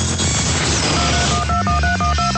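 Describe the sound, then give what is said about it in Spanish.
Touch-tone dialing from a push-button telephone: a quick run of short, steady dual-pitched beeps follows a stretch of dense, noisy sound, with each tone clipped off sharply before the next. “cuando en Estados Unidos se introdujo la señal de tono al tacto y llegaron los teléfonos con botones.”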